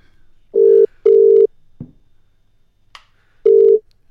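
Telephone ringing tone on an outgoing call: a low buzzing tone in a double burst, a pause, then another burst, with a couple of faint clicks in between.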